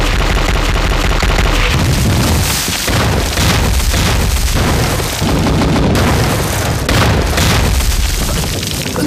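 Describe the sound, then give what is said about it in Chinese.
Heavy artillery bombardment of enemy positions in wartime: loud, dense booms and blasts that roll on without pause for the whole stretch, with a few sharper cracks standing out and no voices. “命令，炮击，开始。”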